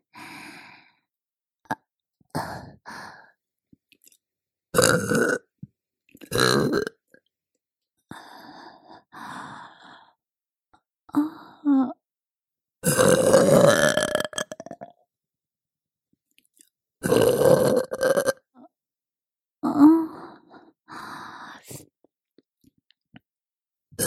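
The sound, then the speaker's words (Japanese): A woman burps repeatedly, producing many throaty, drawn-out belches of varying length. Each burst is separated by stretches of silence, and no one speaks. “もっと聞かせてあげる。ママゲップ、たっぷり味わってね。”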